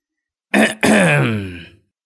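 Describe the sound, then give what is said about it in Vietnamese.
An older woman clears her throat in a kitchen: a short sharp rasp, then a longer voiced grunt that falls slightly in pitch, loud and alone. “Mụ hắng giọng.”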